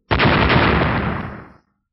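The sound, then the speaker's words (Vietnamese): One heavy explosive blast with a sudden loud onset, a dense rumbling roar that holds for over a second and then fades out, with no talk. “Vài tiếng nổ vang lên”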